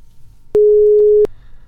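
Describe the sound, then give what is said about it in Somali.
A telephone busy tone after a caller's line dropped: one loud, steady mid-pitched tone lasting under a second, set against faint low background noise. “Khadka telefoonka ayaa dhegeystahaasi ka go-ay.”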